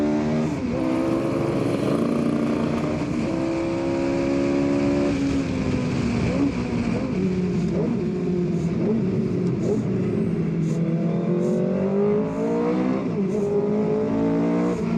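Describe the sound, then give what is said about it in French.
A car accelerating at full throttle in second gear, its engine a loud, continuous roar whose harmonics climb steadily in pitch through the run. “Qu'est-ce que ça pousse? Nom de Dieu, qu'est-ce que ça pousse? En deuxième, regarde ça, j'accélère à fond. Je suis collé dans le siège.”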